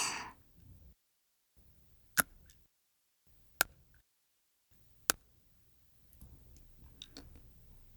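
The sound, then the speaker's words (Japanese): Teeth clicking together like fangs: three sharp, isolated clicks spaced more than a second apart, then a few fainter clicks over soft background noise, all quiet and close. “これは私の牙の音だよ。”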